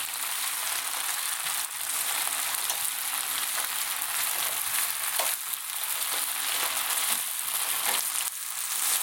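Vegetables, including spinach, sizzle steadily in a frying pan as they wilt down. The bright, crackling hiss is loud and continuous, with no talk.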